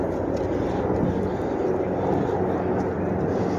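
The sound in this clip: A helicopter sound effect: a steady, fairly loud rotor-and-engine drone that holds evenly from start to end.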